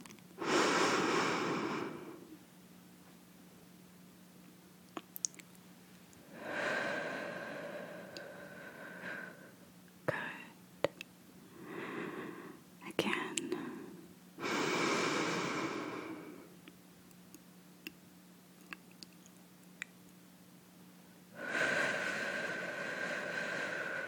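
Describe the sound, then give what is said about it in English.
Deep breaths during a guided breathing exercise: faint, airy inhales and exhales repeat in a slow rhythm, with a few long drawn breaths and shorter, softer breaths and sniffs between them, over a low steady hum. “Keep your eyes closed. And breathe with me. Come on. Inhale.”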